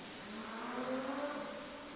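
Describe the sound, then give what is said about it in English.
Motorcycle engine running nearby, a faint, steady droning hum that swells slightly midway, heard alone without talk. “Ooh, somebody's got a motorcycle nearby.”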